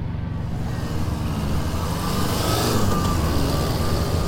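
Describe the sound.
Engine of a taxi pulling up in a street: a steady low motor rumble with a hissy wash of road noise that swells slightly toward the end, with no talk.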